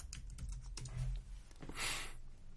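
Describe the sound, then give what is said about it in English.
Quick, irregular key clicks as someone types a search on a computer keyboard, soft and steady with no voices. “I'm going to type in Sting warns democracy.”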